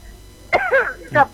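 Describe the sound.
A few short, harsh coughs with a throaty, voiced edge, separated by brief pauses over a quiet background.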